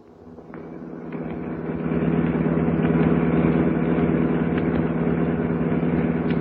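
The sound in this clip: Car engine running while driving along a road in poor weather, a low droning rumble that swells over the first couple of seconds and then holds level, with no voices.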